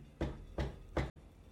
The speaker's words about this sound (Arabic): لكن اللي حصل صوت خبط جاي من جوه التربة